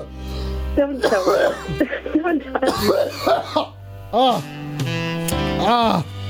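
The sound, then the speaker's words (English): A person coughs in a long, harsh fit: many rapid, rough coughs and throat-clearing bursts, followed by strained, voiced coughing sounds, loud and close. “I just coughed a lot.”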